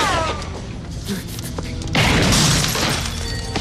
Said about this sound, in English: The swarthy man called Mike fires back, misses and hits a car window.